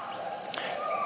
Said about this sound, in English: So this is the sound of Indonesia and Sumatra.